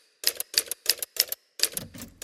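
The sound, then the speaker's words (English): Typing on a typewriter during a musical performance piece: sharp, bright clacking keystrokes in quick clusters, repeating in a steady rhythm, with a final longer flurry. No voices. “And sometimes I have to backspace over words and type X's through them.”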